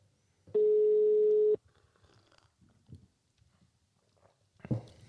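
Outgoing phone call ringing out: one steady, buzzing tone lasts about a second, followed by quiet rustling and a few small clicks and knocks.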